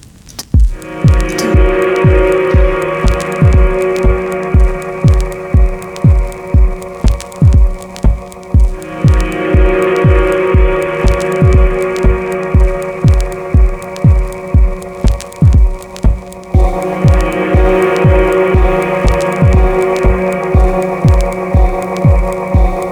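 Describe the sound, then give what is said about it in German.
Dance music from a digital production with added vinyl record crackle: a steady, heavy kick-drum pulse throbs throughout under sustained synth layers that drop back and swell again in sections, with a fine crackling hiss riding on top. “Tanzmusik mit Rauschen von Vinyl.”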